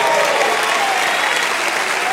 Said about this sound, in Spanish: Alguien denle un aplauso al Señor.